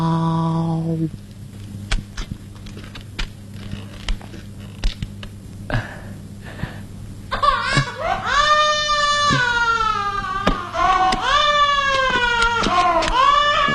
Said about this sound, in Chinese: 你这个孩子不睡觉，又是哭又是闹